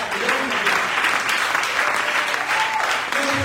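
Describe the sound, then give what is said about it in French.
Church audience standing and applauding during a sermon, a dense, steady wash of many hands clapping at even loudness throughout. “je veux qu'on se tienne debout pour acclamer la parole de Dieu”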